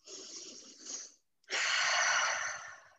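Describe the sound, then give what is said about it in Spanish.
A deep breath during a guided tapping relaxation exercise: a soft inhale of about a second, a brief silent pause, then a longer, louder, airy exhale that fades at the end. “Respiro profundo.”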